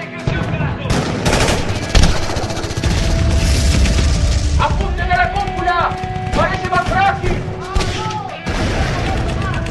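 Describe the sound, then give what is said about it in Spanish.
Gunfire as bullets strike an alien flying ship in a dramatized science-fiction scene, with rapid bursts of sharp shots and booms layered with other whistling effects throughout. “Alrededor de la nave se crea una densa nube de humo a medida que las balas impactan. No hacen nada, las balas no le hacen nada.”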